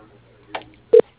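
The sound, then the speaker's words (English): A phone call is transferred to voicemail: a faint click on a quiet line, then a short, sharp telephone beep. “I can transfer you the voicemail. Just a moment.”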